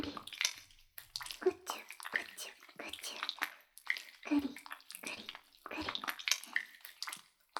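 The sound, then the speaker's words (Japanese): Soap lather being squished with water makes soft, wet squelching and slippery squishes, quiet and irregular, coming in repeated bursts with short pauses between. “石鹸の泡で、くちゅくちゅしちゃいますね。”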